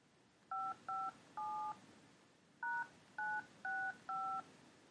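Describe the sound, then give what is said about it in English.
Touch-tone keypad beeps as a telephone number is dialed: seven fairly quiet dual-tone beeps, three in quick succession, a short pause, then four more, over a steady low background hiss. “Hold on just a second while I dial that number.”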